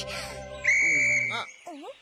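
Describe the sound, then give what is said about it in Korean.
A whistle gives one steady, shrill blast of about half a second, with short squeaky voice-like sounds just before and after it. “갑자기 호루라기는 왜 부른 거야?”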